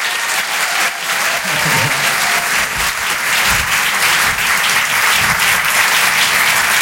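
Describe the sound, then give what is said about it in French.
Dense applause and cheering from a comedy show audience, a steady, loud wash of clapping that runs without pause for the whole stretch. “Le public des Open du Rire. Merci beaucoup. Rire et Chanson. Maximum de bruit, s'il vous plaît, pour Marion Mésadorian.”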